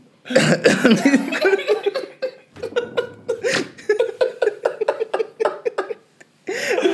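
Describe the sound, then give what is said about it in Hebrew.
A man coughs close to the microphone, with many harsh, rough bursts in irregular clusters, breathy gaps between them and a brief lull near the end before the coughing resumes. “הוא שר רחוק מהמיקרופון. והוא התקרב רק כדי להשתעל.”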